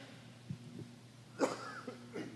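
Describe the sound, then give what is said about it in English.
A single short, loud cough during a church sermon, standing out against a quiet background with a low steady hum and a few soft sounds before and after it. “That's two times more than I coughed in the first service.”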